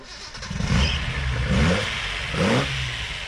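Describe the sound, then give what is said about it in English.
Engine of a 1971 Datsun 240Z car revving loudly in three rising bursts over a rough, throaty idle, with no voices. “that's the sound of Ian English's Datsun that will be heading to Wagga to take part in this event. A 1971 Datsun 240Z”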